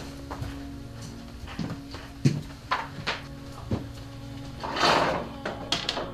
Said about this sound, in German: Da kann ich ja den großen Schrank aufmachen.